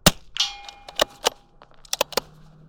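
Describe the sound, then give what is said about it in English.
Practice rifle shots on an outdoor biathlon range near Bozeman, Montana: several sharp, snapping cracks and bright metallic clangs at irregular intervals, with quiet gaps between them. “is taking a few practice shots on a biathlon range outside Bozeman, Montana, and her muscle memory is kicking in.”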